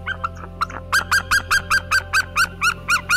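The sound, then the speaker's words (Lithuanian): White-tailed eagles call as they meet their mates, giving a few short notes and then a rapid, evenly spaced series of about a dozen loud, nasal yelping cries. “Taip kleketuoja jūriniai ereliai, sutikę savo poros narius.”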